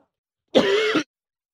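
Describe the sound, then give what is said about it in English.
A single throat-clearing cough, one harsh, rasping burst lasting about half a second, heard alone with silence before and after. “Excuse me. I had something in my throat.”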